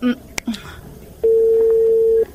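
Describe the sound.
Placing a mobile phone call: a few short dialing beeps come first, followed by one loud, steady electronic ringing tone lasting about a second before it stops.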